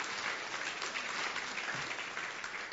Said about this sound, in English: So let's give God a hand. Thank you for being the hands and feet there.